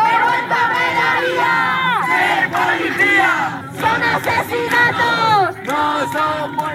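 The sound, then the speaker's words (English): Protest crowd chanting outside Parliament in Madrid during a housing-crisis demonstration: many voices shout a rhythmic slogan together, loud and continuous, in repeated phrases with short breaks between them. “Crowds marched from a central square chanting, "This is not a death, it's a murder."”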